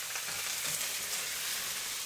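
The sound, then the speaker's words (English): Garlic and rosemary sizzle as they fry in a pan, the garlic just starting to brown, giving a steady, even crackle with no voices. “Okay, our garlic is starting to brown.”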